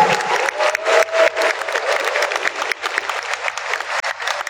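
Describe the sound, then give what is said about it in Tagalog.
An audience applauds itself at a sports gathering, filling the whole clip with dense, steady clapping and a little cheering. The applause is loud and continuous, with no pauses. “Palakpakan po natin ang ating mga sarili.”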